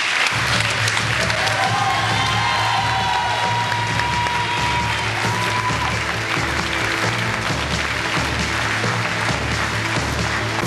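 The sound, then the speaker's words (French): Sustained audience applause at an anniversary comedy television show, broad and steady for over ten seconds, with a faint hum underneath and no letup. “Et puis je vous rappelle quand même que le pitre principal de cette émission, c'était Philippe Gildas. Et on peut l'applaudir.”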